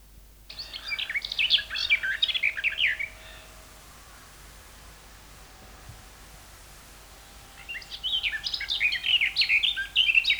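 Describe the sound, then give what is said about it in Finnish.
European pied flycatcher song: two bursts of high, quick chirping phrases, each a few seconds long, separated by a quiet stretch of soft hiss. “Kirjo Sieppo.”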